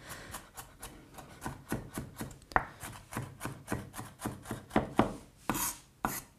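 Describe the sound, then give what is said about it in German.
Onions being finely chopped with a knife for a spread: many quick, steady strikes of the blade on the board at a brisk, even rhythm, each a crisp, sharp tap, with no talking. “Da hacke ich jetzt auch nochmal durch. Jetzt sind sie eh schon fein und klein. Und ich hacke durch. Hack, hack, hack.”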